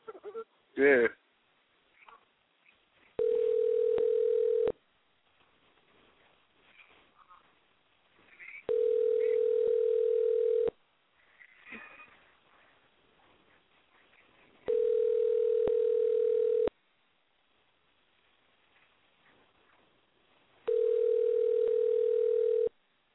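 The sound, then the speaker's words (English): Telephone ringing tones after a number is dialed: four long, steady buzzing rings at even intervals, each about two seconds, with faint talk and noises in the gaps between them. “So I'm going to go ahead and dial, and I'm going to put y'all on mute.”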